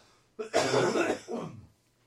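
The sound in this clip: Someone clears a scratchy throat in two harsh, raspy bursts, a long strong one followed by a shorter, softer one, heard alone.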